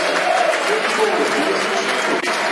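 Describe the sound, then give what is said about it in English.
Stadium crowd applauding a footballer who scored a goal as he leaves the pitch in a substitution. The clapping forms a dense, continuous wash, with a commentator's voice faintly over it. “Good applause for Steve Morrison. Another performance today by Steve Morrison and a goal. Good round of applause for”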